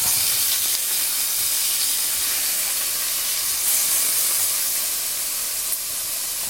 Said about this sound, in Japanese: 継続して焼いてます。